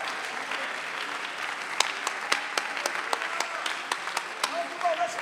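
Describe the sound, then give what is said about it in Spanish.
A church audience applauds in praise during a bilingual English-Spanish service. Many sharp, distinct hand claps ring out over a soft bed of clapping, growing denser toward the end, with voices faintly beneath. “Somebody give God some praise. Alguien dele palmas al Señor.”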